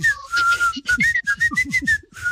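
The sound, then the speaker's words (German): A whistled melody from a song carries as a clear, high tone that steps between short phrases over rhythmic low backing, with no talking. “ich habe sofort das Pfeifen, es wurde ja gepfiffen in dem Song, habe ich sofort drauf.”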